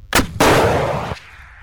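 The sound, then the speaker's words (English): An NLAW shoulder-mounted anti-tank missile fired by troops in training: a sharp loud crack, then a heavy roaring whoosh that holds for under a second before cutting off abruptly. “Well, these are the next generation light anti-tank weapon, or NLAW as they're known. They're a shoulder-mounted portable fire-and-forget missile with a range of up to 800 metres.”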